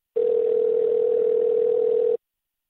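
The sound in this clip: A telephone dial tone plays while a caller is being rung: one steady, unbroken tone at a single pitch, lasting about two seconds at an even level, with nothing else around it.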